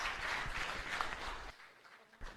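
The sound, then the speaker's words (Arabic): An audience applauding during church worship, a quiet, dense patter of clapping that thins out abruptly after about a second and a half, leaving softer scattered sound. “خلينا ندي تصفيق تمجيد لإلهنا له كل المجد.”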